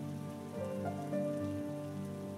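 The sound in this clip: Heavy rain pours down in a dense, continuous patter at a steady level, with faint sustained tones running beneath it.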